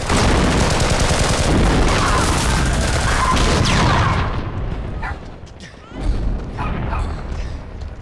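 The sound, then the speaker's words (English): A volley of gunfire aimed at a block of flats as a ceasefire ends: a loud, dense roar of overlapping shots for about four seconds, then a drop before a brief renewed burst. “A volley of gunfire at the flats heralds the end of the ceasefire.”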